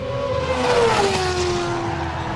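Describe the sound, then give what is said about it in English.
Race cars speed along a street circuit through a town as drivers shift up through the gears into a left-hand turn, a steady, loud engine drone whose main tone drops partway through, alone without talk. “Drivers shift up through the gears before flinging their machines to the left into turn 14, the famed Biscotti Bank”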